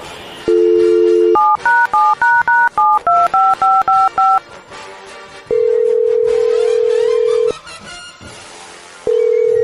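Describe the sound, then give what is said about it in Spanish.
A telephone number is dialed with DTMF tones: a steady tone, then a rapid run of about ten short, bright keypad beeps, followed by long, loud ringing tones separated by a pause. “Ahí estamos marcando.”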